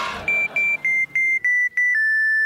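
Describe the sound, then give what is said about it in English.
Electronic beeping of a cartoon superhero distress call: a quick run of high, clean, evenly spaced tonal beeps, ending on a longer held tone that sits slightly lower. “The Adventureketeer distress call broadcasting on a frequency only I can hear.”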